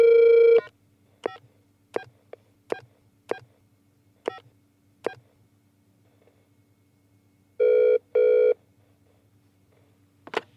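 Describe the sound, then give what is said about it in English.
Telephone dialing: a quick run of short, bright beeps as a number is keyed in, then a pause, a louder doubled ringing burst and a final brief click, with no talk. “Okay, here we go. Dialing.”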